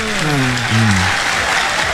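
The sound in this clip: A group claps for a woman during a lighthearted comic session: loud, dense applause with talk over the opening moments that continues alone.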